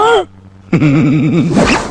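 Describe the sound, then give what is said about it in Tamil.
A zipper on clothing is pulled up with a quick rasping zip near the end, preceded by a short vocal sound and a warbling, wavering tone. “முதல்ல zip போடணும்.”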